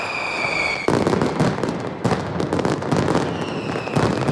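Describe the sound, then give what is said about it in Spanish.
Loud firecracker blasts from a mascletà display in Plaza de Luceros, Alicante, fired by Pirotecnia Mediterráneo. Dense, continuous bursts of crackling detonations run together without pause. “Y a las 2 de esta tarde se ha disparado ya la primera mascleta en la emblemática Plaza de Luceros.”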